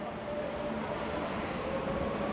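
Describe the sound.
Low, steady rumble of a metro train at a station platform with a faint tonal whine, continuous and fairly quiet throughout.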